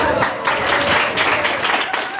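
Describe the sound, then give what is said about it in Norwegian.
An audience applauds a tour company receiving a service award in Nordkapp, with dense, steady clapping mixed with some talk. “så ønsker jeg å gi en stor gratulasjon, og vi kan alle gi en stor applaus til North Cape Tours.”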